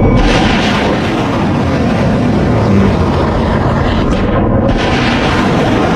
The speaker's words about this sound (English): in case you wanted to see some Tomahawk strikes from the U.S. Navy, or not Tomahawk strikes, excuse me, Tomahawk launches. There are a couple of beautiful Tomahawk launches over in the Strait of Hormuz this evening.